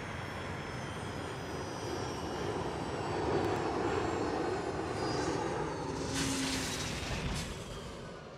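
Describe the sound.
Steady roar of an aircraft coming in to land: a dense, unbroken engine rumble that swells slightly in loudness partway through. No voices are heard.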